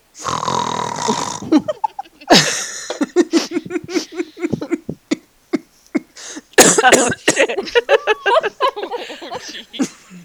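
Harsh coughing and choking after someone inhaled a drink through the nose: many loud, irregular coughs and sputters come in quick bursts with short gasping gaps between them.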